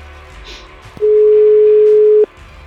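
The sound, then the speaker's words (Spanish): A single steady, loud telephone tone of about a second sounds on an outgoing call, a plain mid-pitched beep over low background hiss. “Ahora vamos a llamar por teléfono a Alejandro Blanco”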